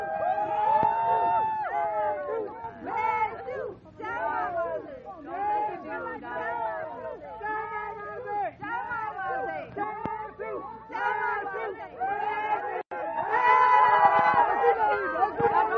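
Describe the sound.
A crowd of Burmese and American people shouts and cheers in welcome for Aung San Suu Kyi outside Blair House, the US president's guest house. Many overlapping voices call out continuously and loudly.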